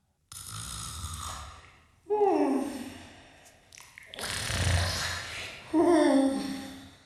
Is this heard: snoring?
yes